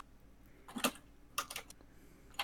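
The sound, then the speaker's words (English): Loud typing on a computer keyboard: clacky keystrokes arrive in a few short, uneven bursts separated by quiet pauses, with no talk over them. “I'm glad that you type as loudly as you do”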